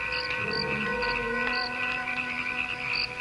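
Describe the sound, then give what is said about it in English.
A dense chorus of frogs sings without pause, forming a steady, loud drone of overlapping tones. High, short chirps recur through it every second or so. “It's frogs. They're singing.”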